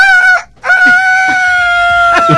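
A person imitates a rooster's crow, apparently at a stadium: a short crowing call, a brief pause, then one long, loud, sustained crow with steady high tones.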